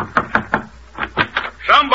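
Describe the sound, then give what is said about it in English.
Knocking on a door: a few firm raps in two quick sets, followed by a voice starting to speak. “Somebody's thumped on my door.”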